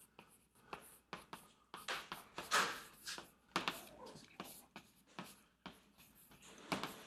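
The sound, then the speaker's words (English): Chalk writes on a blackboard during a physics lecture: many short, faint scratching and tapping strokes in an uneven rhythm, with a few brief soft sounds from the speaker between them. “It requires a bit of courage to write that phrase on this blackboard, but anyway.”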